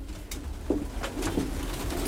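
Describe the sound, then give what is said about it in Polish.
Racing pigeons coo in a breeder's loft: a few soft, low throaty coos rise now and then over a constant faint rustling background, with no voices. “Pokażę najlepszego gołębia, jak to się mówi, który wygrał maraton. Ten gołąb.”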